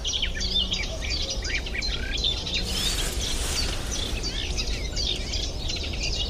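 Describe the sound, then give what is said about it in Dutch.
A Cetti's warbler sings very close by in a marsh, pouring out loud, abrupt bursts of rich, high chirping phrases that repeat over a steady background hiss. “Nu is het een vrij normale soort in moerassen. De setisanger.”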